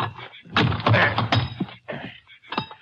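Heavy metallic thunks from an iron bar forcing a fairly new lock, a loud irregular series of blunt strikes and scraping clanks with brief pauses between them.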